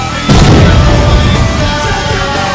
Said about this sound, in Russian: Лови гранату, гад!